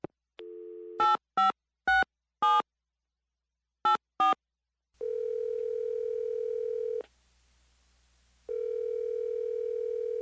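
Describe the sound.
Telephone dialing into an automated government public comment line: a brief dial tone, then six keypad touch-tone beeps in two bursts. Long, steady ringing tones follow, separated by a short silence.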